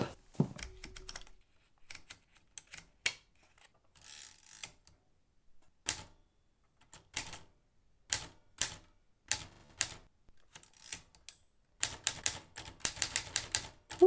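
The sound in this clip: Typing on a mechanical typewriter: crisp, irregular key clacks in short bursts separated by pauses, building to a dense, fast run of strikes at the end.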